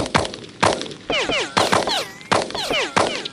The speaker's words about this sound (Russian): Послышались выстрелы. Вокруг засвистали пули.